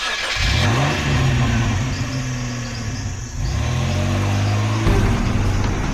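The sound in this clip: A car engine revs hard as the car pulls away and accelerates at speed. Its loud mid-pitched hum climbs repeatedly, broken by a few gear changes, with no voices.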